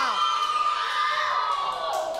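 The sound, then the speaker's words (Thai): A class of children cheers and shouts for every group, a continuous loud wash of high excited voices that holds steady throughout. “หมดเวลาค่ะปรบมือให้ทุกกลุ่มเลยค่ะ”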